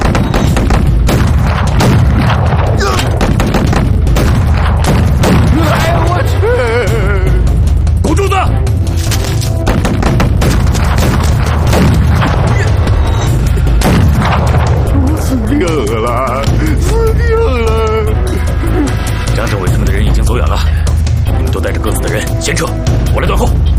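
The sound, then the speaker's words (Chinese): Mortar fire in a battle: repeated deep booms and sharp cracks in a dense, loud, continuous barrage, with shouting voices mixed throughout. “迫撃砲用意。 撃て。”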